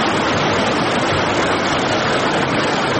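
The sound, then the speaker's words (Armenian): Water pours from Arpi Lake into Kaps reservoir in Shirak region, giving a loud, steady, unbroken rushing roar with no talk. “Նկարահանման պահին արփիլեջից ջուրը շիրակ մարզի մի քանի տասնյակ համայնքների ոռոգման ջրով ապահովող ջրամբար էր լցվում։”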